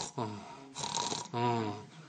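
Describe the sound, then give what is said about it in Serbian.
A voice imitates snoring with a few throaty, rasping snore-like breaths in a slow rhythm, quiet and alone. “On mene uspava, on počne hrkat.”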